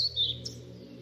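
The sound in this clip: European pied flycatcher song: a few brief, high whistled chirps that stand out faintly above a steady low tonal drone.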